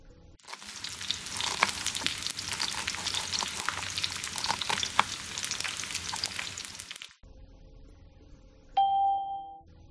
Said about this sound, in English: He's cooking.